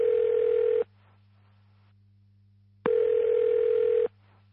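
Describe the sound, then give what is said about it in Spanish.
Two long electronic telephone ringing tones sound for an incoming call at a secret fortress. Each is a steady, buzzing mid-pitched burst, and the bursts are separated by a quiet pause of about two seconds. No voices are heard. “Ajeno a lo acontecido, en la fortaleza de Agromán suena una llamada.”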